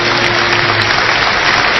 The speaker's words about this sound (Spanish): Un aplauso para ellos, por favor.